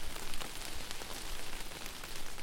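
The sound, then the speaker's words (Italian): Warm rain showers fall in hot, sultry weather as warm air rises from the asphalt: a dense, continuous hiss of rain, steady and even throughout, with no voices. “Dall'asfalto sale un soffio caldo che ogni tanto viene attenuato da scrosci di pioggia tiepida.”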